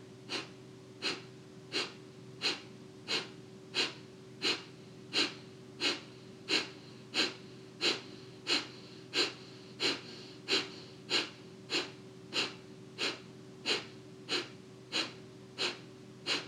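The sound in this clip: Kapalabhati breathing sounds as many short, forceful exhales through the nose in a steady, even rhythm of a little more than one per second, with a low steady drone underneath.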